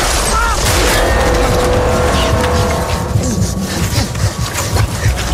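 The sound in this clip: A car starts and drives off in a crime film scene, with loud, steady engine and road noise filling the whole clip.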